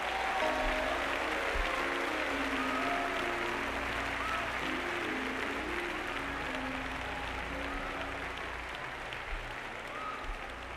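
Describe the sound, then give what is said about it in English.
Congregation in church clapping their hands, a sustained, even roll of applause that continues throughout and eases slightly toward the end, with faint sustained low tones running beneath. “Clap your hands and give God glory.”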